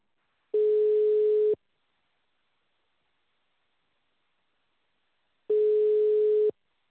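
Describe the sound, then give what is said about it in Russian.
A telephone ringback tone sounds while a call to a buyer is being connected: two steady, mid-pitched beeps, each about a second long, separated by several seconds of silence. “Вам звонок с Яндекс недвижимости. Вам начинаем звонок покупателю.”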